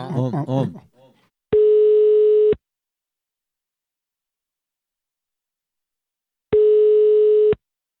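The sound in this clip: Telephone line tone while placing a call: two long, steady mid-pitched tones of about one second each, separated by several seconds of silence, following a brief moment of talk at the start.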